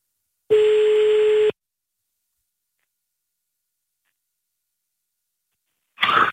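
A single steady electronic telephone tone lasting about a second as a call is placed, followed by a long silence and a short burst of sound at the end.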